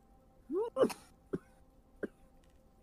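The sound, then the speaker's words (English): A person coughing during a tabletop role-playing game session after smoking weed, with a short voiced sound followed by a few brief, faint coughs spaced apart. “my friend who's coughing, are you okay? Do you need a sec? Grab some water.”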